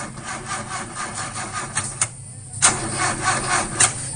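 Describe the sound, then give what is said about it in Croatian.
An old car engine struggling to start, with a rapid, rhythmic churning crank that pauses briefly and then resumes without catching. “Neđe ti nešto taj auto, a?”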